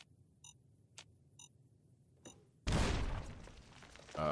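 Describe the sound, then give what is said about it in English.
A frag mine exploding in a video game: a few faint, evenly spaced beeps and ticks come before a sudden loud burst of noise that rumbles on, with another swell of sound at the end. “Yay, I got the frag mine that time. So somebody has thoughtfully set booby-trap landmines on top of this pipe that is a safe passage.”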